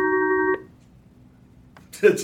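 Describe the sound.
A telephone ringtone sounds as a short electronic tone that cuts off abruptly. After a pause, a voice begins speaking.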